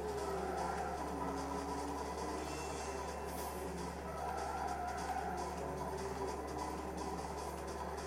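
Engines of race cars gathered at the start of a race in the Ridge Racer video game, a faint, steady layered drone with constant tonal hum and little change in loudness across the whole stretch.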